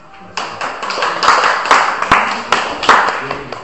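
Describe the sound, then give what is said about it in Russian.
Audience applause from a small group, starting abruptly after a short quiet moment, with individual claps standing out in a brisk, uneven patter. “Хорошо, аплодисменты.”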